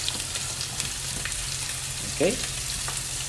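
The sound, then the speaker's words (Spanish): Meat and purple onion frying in oil in a preheated pan give a steady, soft sizzle with scattered crackles, and one brief louder scrape partway through. “Vamos a echar la carne en el otro sartén precaliente también, otro poquito de aceite para ponerle la cebollita, una cebollita lila.”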